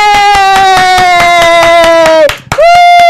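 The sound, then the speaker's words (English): Clapping from an audience welcoming a singer to perform, quick regular claps under a loud sustained tone that cuts off briefly near the end and then returns. “Ladies and gentlemen, put your hands together for Carlos. He's going to sing I'm Fading.”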